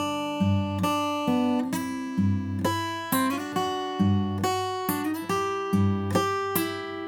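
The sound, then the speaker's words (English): Acoustic guitar played with the drop-thumbing, banjo-style picking technique, moving through chord shapes in a steady rhythm of many thumbed bass notes and brushed chords, ringing clearly on its own. “let me go ahead and go through this drop thumbing with those chord shapes, and you'll start to hear this come alive. It's gonna sound like this.”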